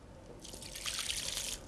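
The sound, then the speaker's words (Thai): Water pours onto a dry-stirred compost mix of soil, dead leaves and food scraps. After a short quiet start, a soft, steady hissing trickle runs on, faint and without speech. “เราคลุกให้เข้ากันแล้วค่อยใส่น้ำ”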